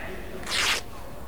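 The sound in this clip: A single short rip as an orange overall is torn open at the knee, a quick, bright burst of tearing fabric over a quiet background.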